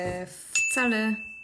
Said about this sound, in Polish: Z tej okazji przygotowałem nowy dzwonek. Subtelny. Subtelny, szybciutki.